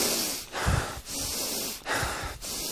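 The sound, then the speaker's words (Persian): Fast, deep breathing done on purpose in a breathing exercise: several loud, rapid inhales and exhales in steady alternation, each a rough, airy rush, heard alone. “حالا نفس تند و عمیق.”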